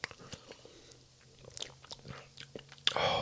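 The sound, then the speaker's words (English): A person bites into food and chews to taste it, making soft, irregular crunches and wet mouth clicks. The sounds are faint and scattered, with a brief louder rustle near the end. “we're going to try this real quick and see how it tastes.”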